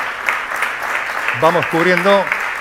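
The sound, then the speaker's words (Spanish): Audience applause forms a steady, fairly loud patter of clapping, and a voice speaks over it toward the end. “Si le pueden aplaudir, pues”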